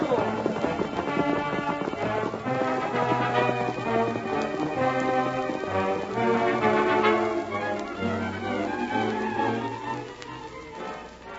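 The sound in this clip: Horses gallop off as riders set out heading into a range war, their hoofbeats drumming steadily under music throughout.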